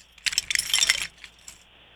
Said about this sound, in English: I'm going to get my keys out.